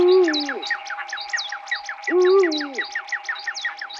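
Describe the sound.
Two deep eagle owl hoots about two seconds apart, each dropping in pitch at the end, used as the vocal line in a musical piece built from bird sounds. They sit over a rapid, repeating pattern of higher chirps and a steady held tone.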